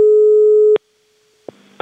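Telephone busy tone after a caller hangs up: a steady, unbroken electronic tone held for under a second, then abruptly cut off, followed by a brief click and a burst of noise.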